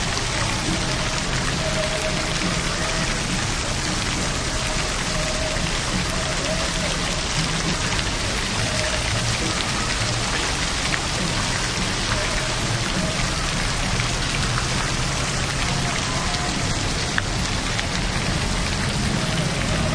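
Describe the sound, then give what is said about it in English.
Water splashes in a fountain, a dense, steady hiss of falling spray that runs at an even loudness from start to finish, with no break. “Kind of a cool sound here. Let's check it out. We'll walk around it. Maybe you get like a three-dimensional sound or something. We'll walk all around the fountain.”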